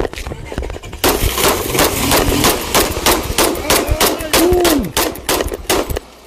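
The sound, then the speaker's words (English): Handgun gunshots ring out in a rapid, irregular volley of many loud, sharp cracks that keep coming almost without pause. “All of a sudden, nope, he pulls out a gun, starts firing shots at her. Shots fired, shots fired.”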